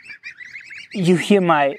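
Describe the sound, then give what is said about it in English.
Young ducklings or goslings calling: a run of thin, high peeps, then louder, fuller calls with bending pitch. “you hear my, I want to say little ducklings, but maybe they are little gooselings. They start talking to me when I'm getting a little louder or a little bit more enthusiastic.”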